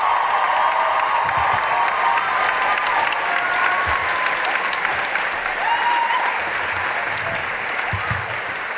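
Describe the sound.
Audience applause greets a comedian coming on stage at a live show in Melbourne. A dense, steady clatter of clapping holds throughout and eases slightly at the very end.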